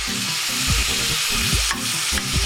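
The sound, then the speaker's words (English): Meat and onions sauté in a pan with a loud, steady sizzle. Scraping stirs break through it several times, and no one speaks. “After a few minutes of sauteing the meat and the onions, I'm ready to add my beans.”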